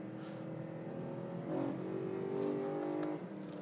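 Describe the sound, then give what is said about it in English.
Engine drone from BMW M3, 1M and X6M cars driving in a line, a fairly faint, steady hum with layered tonal harmonics that swell slightly twice before settling, no voices. “The M3 just wants to step out so much, it just wants to drift.”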